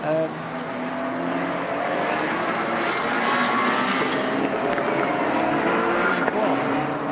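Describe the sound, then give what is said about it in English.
A race car in the 2018 VLN ADAC Ruhr-Pokal race rushes past at high speed, its engine a loud, sustained roar that swells over the first seconds and then holds strong. “Which car is that? Can't pick it out. I'm trying to work out which car it was. It's going very rapidly.”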